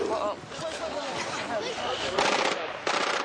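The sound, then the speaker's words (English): Gunfire from an armored personnel carrier speeding toward a memorial service: rapid, crackling automatic bursts over a rough, noisy background with voices in the mix, and two louder bursts near the end. “The shots came from an armored personnel carrier speeding towards the memorial service.”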